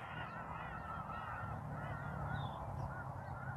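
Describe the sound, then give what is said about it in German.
Geese honk in the background, a faint run of overlapping calls that continues steadily for a few seconds. “Du hörst die Vögel im Hintergrund, stimmen mir zu bei dem, was ich sage, sehe es als positives Zeichen.”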